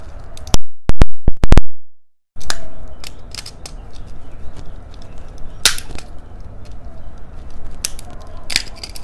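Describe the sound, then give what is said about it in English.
A standard electrical plug is ripped apart by hand: a few sharp, loud plastic cracks and snaps come in quick succession, then a brief silence and many quieter scattered clicks and crackles. “All right, first thing, I'm just going to take a standard plug and start ripping the damn thing apart.”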